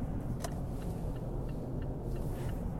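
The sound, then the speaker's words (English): A steady low road rumble comes from a car moving through traffic on a five-lane freeway near an accident. The engine and tire drone stays constant, with no voices. “sorry, I'm driving and there must be an accident up here on the freeway where they have the, we've got 5 lanes of traffic here”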